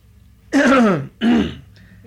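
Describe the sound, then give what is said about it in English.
A person clears their throat in two harsh, rasping bursts. The first is longer and stronger, the second shorter. No other sound accompanies them. “I'm trying to clear my throat.”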